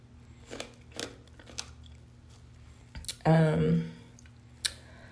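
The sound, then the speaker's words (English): Crunchy bites and chewing of a pomegranate in a bathtub, a few sharp, brief clicks spread apart and separated by quiet gaps. “I'm actually eating a pomegranate, and I don't think that they have any ASMR value”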